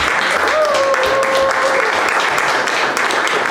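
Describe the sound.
Dense, steady audience applause welcoming a speaker at a literary event, sustained at an even, fairly loud level.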